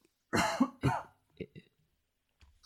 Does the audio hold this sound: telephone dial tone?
no

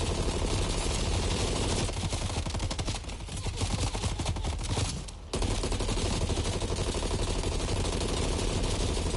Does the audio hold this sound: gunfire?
yes

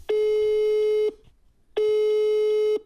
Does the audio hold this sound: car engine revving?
no

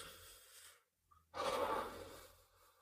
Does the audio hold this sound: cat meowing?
no

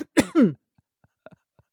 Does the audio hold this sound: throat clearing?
yes

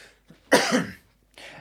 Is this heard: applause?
no

